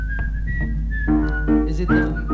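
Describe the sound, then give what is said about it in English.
A person whistles a tune, a thin, clear melodic line of held and sliding notes at a fairly steady loudness, with a low hum running underneath throughout. “Try and do like a real whistle solo, because it is a bit much if it's those joke whistlings.”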